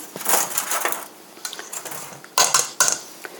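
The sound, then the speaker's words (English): Eggshells from six eggs are dumped from a sink into the trash, with crunchy crackling and clattering bursts and a few sharper, louder crunches near the end. “6 eggs and a bunch of eggshells in the sink now going to the trash.”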